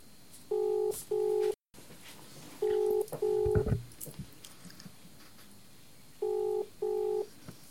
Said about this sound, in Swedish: Nu ska jag ringa till Indien.